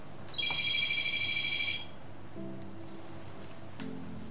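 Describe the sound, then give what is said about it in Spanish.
A telephone rings for an incoming call: one bright electronic ring of steady, high, layered tones that lasts just over a second before falling to near quiet. “Espera, que nos entra una llamada.”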